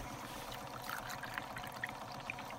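Water is poured from buckets into a pump at a snow-covered pond during frog DNA sampling. It makes a continuous, fairly faint splashing rush, steady throughout with small flickers of droplets and no voices.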